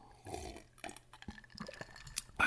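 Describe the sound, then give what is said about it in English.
Quiet sips and swallows of drinking water: a few small gulps and wet clicks, faint and alone with no talk. “Hold on, I got to take a drink of water.”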